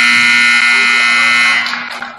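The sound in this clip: A loud electronic buzzer marks the end of the third quarter of a basketball game, a harsh, steady tone holding for about a second and a half before it breaks off and fades.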